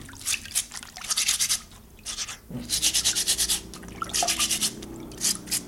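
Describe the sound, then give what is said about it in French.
Truffles being brushed hard to scrub off the soil, a dry bristly scraping in quick repeated strokes that come in several bursts with short pauses between them. “Il faut les brosser fortement pour enlever toute la terre. Il faut les brosser fortement, fortement dans tous les coins.”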